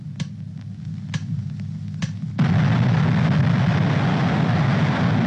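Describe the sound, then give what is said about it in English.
An atomic bomb burst: a few faint clicks, then a sudden loud, broad roar that keeps rumbling steadily to the end. No voices. “Patterns of tracer rockets crisscross the impressive and symmetrical atomic cloud formation, playing their part in the scientific record of the burst.”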